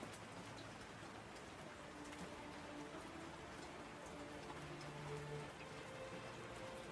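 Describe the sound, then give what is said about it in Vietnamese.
Faint, steady drizzle of rain, a soft continuous patter with no pauses and no voices. “mặc cho cơn mưa vẫn âm thầm giá rích”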